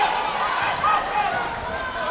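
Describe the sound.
Basketball dribbled on the court during a postseason game, steady bouncing thuds running under continuous commentator speech.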